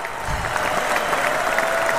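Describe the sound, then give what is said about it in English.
Applause sound effect, a steady dense wash of crowd clapping that holds at an even level for about two seconds. “That is a round of applause right there.”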